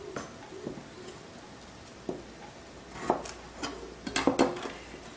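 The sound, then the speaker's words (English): A knife chops food into bite-sized pieces on a cutting board, giving faint, sparse wooden knocks at irregular intervals and then a quicker cluster of chops near the end. “put it down on the cutting board like so. Again, let's come back and do the same thing. Again, I'm going to put it like that, and then I'm just going to hold it and chop it in bite-sized pieces.”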